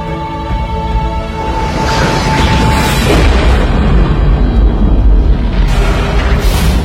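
A deep, powerful explosive roar from a six-mile-wide rock striking the planet: a loud, sustained rumbling blast that swells and keeps rolling heavily to the end.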